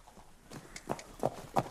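A horse being trotted up to check that it is sound: a few soft, muffled hoofbeats land in an uneven rhythm, faint against a low background, with no voices.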